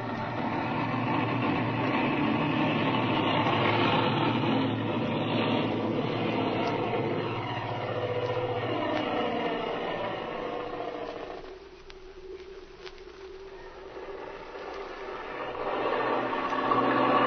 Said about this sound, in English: Take a good long run. Remember, you're used to taking off at Kansas City, where the elevation is over 1,000 feet.